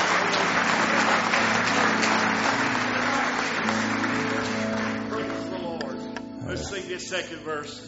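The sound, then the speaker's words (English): An audience claps hands in praise at a church service, a dense, steady wash of clapping that runs throughout and eases slightly toward the end, with voices and tonal sounds underneath. “Let's give the Lord a real good hand clap of praise tonight.”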